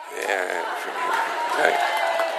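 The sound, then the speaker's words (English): A studio audience cheers and applauds in a continuous, fairly loud wash of massed voices with a few crisp claps, swelling slightly toward the end. “Well, and that's the applause we have for ourselves, really.”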